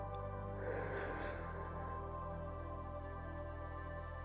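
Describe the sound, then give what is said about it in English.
A deep breath drawn in, a soft airy rush rising and fading over a steady, sustained tonal background. “Let's take this time to close our eyes and take a deep breath in”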